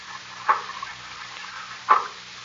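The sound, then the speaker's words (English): Two muffled, heavy blows of an axe battering at a door leading aft from a ship's wheelhouse underwater, the strikes spaced well apart over a low, steady murmur. “Look, I'll have to batter it open with the axe. Look out.”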